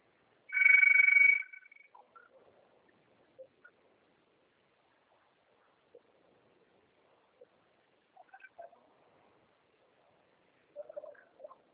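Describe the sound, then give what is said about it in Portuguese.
A telephone rings once in a short, bright, warbling burst, loud and alone, followed by long near-silence with only a few faint scattered noises. “você atende, eu estou na ligação aqui, Geraldo. Aí toca três vezes e desliga.”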